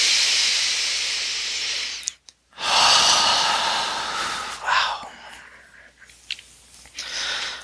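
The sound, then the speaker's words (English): Slow exhaled breaths during a guided breathing exercise: two long, airy, hissing exhales separated by a short silent gap, followed by softer, fainter breaths. “Final one together, exhaling.”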